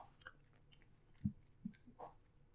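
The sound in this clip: Faint chewing and biting of food, with a few soft crunchy bites spaced apart over near silence.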